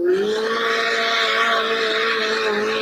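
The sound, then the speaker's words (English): A Volkswagen TDI compact diesel engine runs lean on nitrous, giving a loud, sustained droning tone with stable harmonics. The pitch rises briefly at the start, then holds nearly level. “Running a little lean there, buddy. Nitrous kicked in.”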